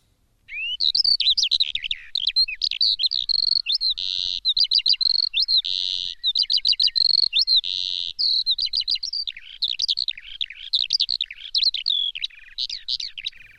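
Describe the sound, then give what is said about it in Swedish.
A skylark sings over fields and meadows, a long, unbroken stream of high, rapid warbles and trills, bright and fairly loud, with only tiny pauses between phrases. “Sånglärkan som du just nu hör åkrar och ängar till. Från tidigt på våren till långt in på sommaren brukar den briljera med sin sång.”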